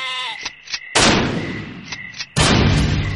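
Gunshots in a radio drama: two loud, harsh blasts about a second and a half apart, each with a long, rough decaying tail, plus a few lighter sharp cracks between them.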